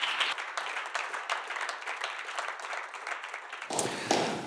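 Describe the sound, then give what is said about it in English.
Church audience applauding to welcome a guest pastor, a steady wash of clapping from many hands that holds for a few seconds before a different sound takes over at the end. “I would love to encourage every single one of you to stand to your feet, throw your hands together, and welcome Pastor Tripp Healy from Ridge Church, Wetumpka, Alabama. Come on, let them know how much you love them.”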